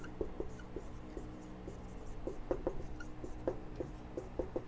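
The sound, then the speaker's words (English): A pen scratches faintly on paper as notes are jotted by hand, making a quiet, irregular run of many small ticks and scrapes. “This is mainly helping me to jot this down later”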